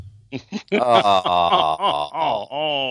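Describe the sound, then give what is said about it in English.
Groaning in reaction to a bad joke during a church service: a loud voiced groan made of a few drawn-out, wavering moans with sliding pitch. “That's a bad joke. Philosophical groan.”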